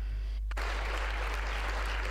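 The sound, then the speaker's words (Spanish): Applause sound effect: a dense, even wash of clapping that cuts in abruptly after a short gap and holds steady over a constant low hum. “me preparo una de aplausos porque, señores, vamos a apagar la otra música”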